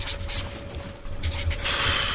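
Pen scribbling doodles on a paper page, faint scratchy strokes arriving in irregular bursts with brief lulls between, growing busier near the end.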